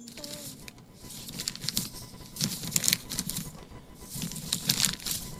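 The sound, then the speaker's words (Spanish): Paper being crumpled into a ball, heard as irregular crackling and crinkling bursts that continue unevenly throughout, some louder than others. “Papel abollado. Papel, muy bien.”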